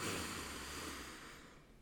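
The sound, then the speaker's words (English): A slow, deep inhale during a guided breathing exercise, a faint, steady rush of air lasting under two seconds that tapers off at the end. “inhale and exhale. Last time, guys. Inhale.”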